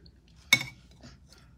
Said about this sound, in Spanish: Pero, entonces estoy comiendo pozole, chicas, la verdad. Porque es lo que me quedó.